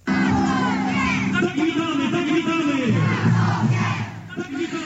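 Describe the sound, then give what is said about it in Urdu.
A large crowd chants slogans in unison to welcome Pope Francis on his arrival in Poland, loud rhythmic massed voices rising and falling in a repeated cadence, sustained throughout. “یہ نعرے لوگوں نے pope Francis کے Poland پہنچنے پر انہیں خوش آمدید کہنے کے لیے لگائے.”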